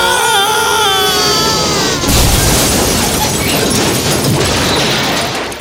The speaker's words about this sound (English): Oh shit, we just lost the rotor blade. Get control of it, Jim. I can't. We've gone into a spin. We're going down.